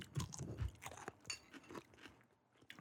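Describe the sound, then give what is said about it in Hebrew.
A crunchy bite into a deli-style half-sour pickle close to the microphone, followed by several wet, crackling chewing crunches that grow quieter and sparser. “אל תאכל מול המיקרופון יותר מדי, ותחווה דעתך הכנה. או, איזה קראנץ'. רגע, אני אתן גם קראנץ'?”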